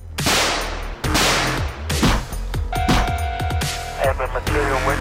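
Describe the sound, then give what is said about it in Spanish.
Gunfire in a video game: many sharp, loud shots in irregular bursts, packed closely together at first and then more spaced out, over a constant noisy bed. “Maldito, le voy a disparar en la cabeza. Le voy a disparar.”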